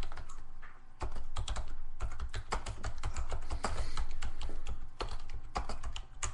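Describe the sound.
Rapid typing on a computer keyboard, a dense run of many light clicks with short pauses near the start and toward the end, and no voices.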